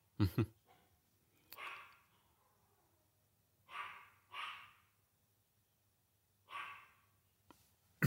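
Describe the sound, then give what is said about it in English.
A dog barks excitedly downstairs, giving several faint, separate barks with short pauses between them. “My dog is going crazy downstairs.”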